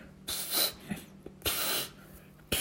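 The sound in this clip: Someone blows air hard by mouth to inflate an inflatable boat: three strong, breathy blows separated by short pauses, with the last one cut off.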